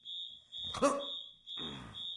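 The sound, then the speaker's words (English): A fire alarm sounds a steady, shrill high-pitched tone throughout, while people talk over it in two short bursts. “What about the fire alarm? Fuck the fire alarm.”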